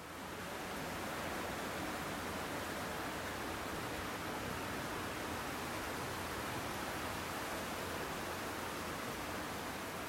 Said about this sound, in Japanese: まずこの水が流れている音なんですけれども、これも入って入り口すぐのところになるんですね。